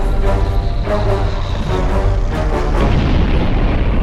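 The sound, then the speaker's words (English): A bomb explodes during an air raid on an airfield, giving a loud, sustained low rumbling roar that fills the whole stretch and has no clearly separate blasts. “That bomb exploded near Alan's neighborhood.”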